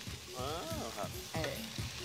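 Food sizzles as it is stir-fried in hot oil, with ingredients pressed and crushed in the pan. A steady hiss of frying runs throughout, with brief scraping swells from stirring.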